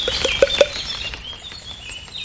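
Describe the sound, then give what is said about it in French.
Song of a common whitethroat: a few quick, scratchy chirps, then a loud, sustained, very high thin note. “Grisette. Ouais, ça fait grisette, on va attendre un peu. Fauvette grisette.”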